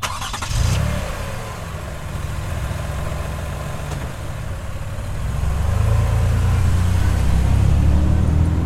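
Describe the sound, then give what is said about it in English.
A car engine drones steadily while driving, a continuous low rumble that grows heavier and louder over the last few seconds. “As I'm driving to Robin's apartment”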